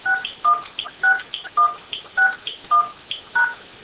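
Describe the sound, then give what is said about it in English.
Telephone keypad tones entering a six-digit voicemail PIN: a steady, evenly spaced run of short electronic beeps, clear and alone with no talk. “Please enter your PIN, then press the pound key. If this is not your mailbox, press the star key. So in this case, I've got a 6-digit PIN.”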